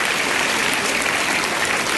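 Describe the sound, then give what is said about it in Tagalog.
An audience applauding during a church worship service: dense, loud, steady clapping from many hands that holds evenly throughout without pause. “Amen? Palakpakan natin at Panginoon para doon.”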